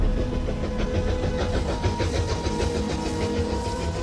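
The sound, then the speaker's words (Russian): A train travelling: a dense, continuous rumble with a low mechanical drone and a busy rattle that stays fairly even from start to end. “Артур едет в поезде, читает газету.”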